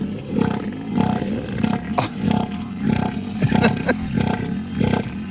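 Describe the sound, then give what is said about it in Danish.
Elephant seals bellowing on land: deep, throbbing roars repeat in a steady series of loud pulses, about one a second, with rough, growling texture throughout. “skal vi lige prøve at høre, hvordan lyder sådan en søelefant?”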